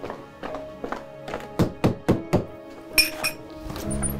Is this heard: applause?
no